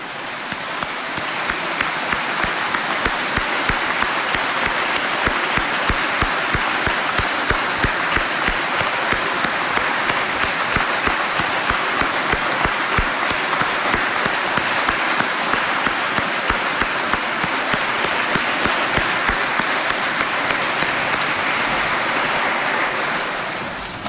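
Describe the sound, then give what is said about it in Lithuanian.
A large crowd applauds to greet the Pope. The clapping is thick and unbroken and stays loud and even for the whole stretch, like a steady roar of many hands with no pauses. “Pasveikinkime plojimais jį ir visą lietuvių tautą. Pasveikinkime popiežių.”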